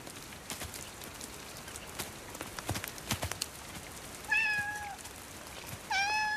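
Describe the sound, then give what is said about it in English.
Cat meows twice near the end as it moves through a dripping wet forest over mossy fallen branches; light rustling and soft ticks fill the quieter stretch before. “Cat makes its way through the mossy branches of a fallen tree, still dripping with water.”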